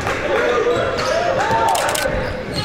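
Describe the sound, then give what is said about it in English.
A basketball thumps on the court during a behind-the-back dribble in a game, a few bounces half-buried under steady crowd noise and a talking voice. “Uses the behind-the-back dribble to get to the wing right side.”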